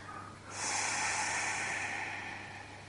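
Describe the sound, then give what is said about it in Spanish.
A long, deep exhale during a guided breathing exercise. The soft, breathy hiss swells after about half a second, holds, and then slowly tapers away. “Vamos a retener el aire unos segunditos. Y vamos a exhalar.”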